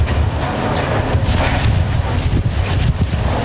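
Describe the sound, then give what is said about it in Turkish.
Strong wind from Hurricane Isaias, gusting up to 165 km/h as it struck Florida, Georgia and Alabama: a loud, continuous roaring rush with heavy gusts buffeting the microphone and no voices. “Saatte 165 kilometre hıza ulaşan şiddetli rüzgar çatıları uçurduğu elektrik hatlarını söktü.”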